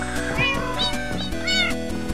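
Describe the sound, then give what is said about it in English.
Cats in a video game meow several times over a loud, continuous musical background. Each meow has a short, rising-then-falling whine. “Let's go crazy with the cats.”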